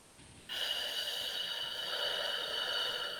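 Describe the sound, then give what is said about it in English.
A slow exhale after holding a breath: a soft, breathy hiss starts abruptly after a brief quiet moment. It continues at an even, faint level to the end. “take a deep breath and hold on to your breath. One, two, three, and slowly exhale.”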